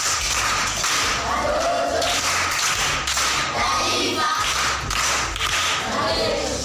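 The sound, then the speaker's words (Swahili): Primary school pupils clap together as a group, keeping a loud, steady rhythm of sharp beats that runs unbroken from start to finish. “Makofi kwa shangazi.”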